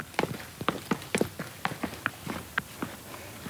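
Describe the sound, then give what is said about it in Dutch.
Footsteps go down a small flight of steps in a garden, many quick, light, evenly spaced treads at a brisk rhythm, fairly quiet and heard alone. “Maar loop even naar beneden. Ja, loop even naar beneden. Want ze moeten hier even een trappetje af.”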